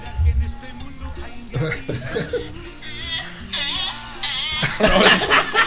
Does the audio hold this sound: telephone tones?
no

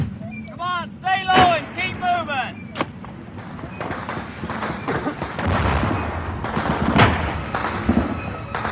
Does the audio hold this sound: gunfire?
yes

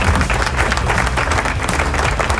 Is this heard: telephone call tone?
no

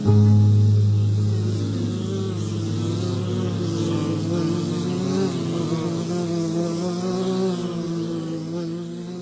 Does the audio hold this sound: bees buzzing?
yes

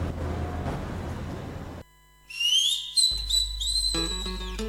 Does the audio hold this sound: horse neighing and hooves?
no

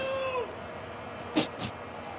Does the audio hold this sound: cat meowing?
yes

